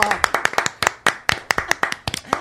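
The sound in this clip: Hands clap in a brisk, fairly even stream of sharp, loud claps, many in quick succession, as people applaud someone arriving.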